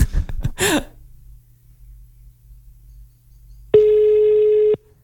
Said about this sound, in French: Oula, la sonnerie, elle a mué.